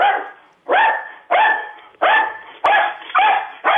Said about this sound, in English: the dog's trying to get his message in, too.